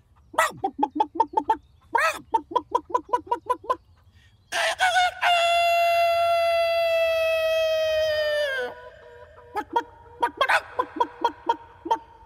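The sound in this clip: A hen clucks in quick rhythmic bursts, then a rooster gives one long, loud, drawn-out crow, followed by another run of short clucks.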